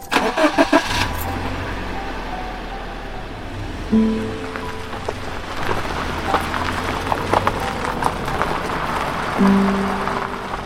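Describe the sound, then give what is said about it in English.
A Toyota Corolla engine cranks with a few quick bursts and catches, then runs steadily as the car drives off, its even hum holding under a patter like rain. “After that, I got back in my Toyota Corolla and drove home.”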